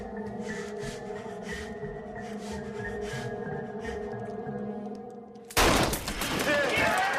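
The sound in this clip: A sudden loud gunshot in a film scene bursts out near the end, following a stretch of quiet, steady tonal background, and trails off into a noisy, crackling wash.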